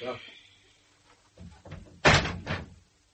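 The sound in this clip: A window is opened with a couple of faint creaks and scrapes, then a louder sliding rush that fades out.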